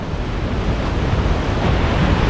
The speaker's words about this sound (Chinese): 在湿季的汛期，每秒约有5000吨的河水从维多利亚瀑布倾泻而下。